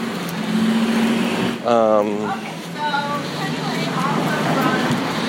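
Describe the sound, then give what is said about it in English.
Busy street traffic: cars pass in a steady, loud roar that never drops away. A voice speaks briefly over the noise. “I'm trying to cross the street here. Sorry. There's fucking cars coming from every which way.”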